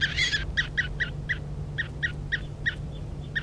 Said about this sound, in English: This is bird 3:35 being handled.